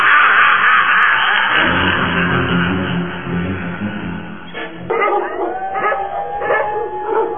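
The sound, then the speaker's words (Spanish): Dogs barking and howling in a loud, continuous racket, with a dense noisy wash early on and drawn-out howl-like tones toward the end. “Otra vez esos mendigos perros. ¿Qué escándalo se traen?”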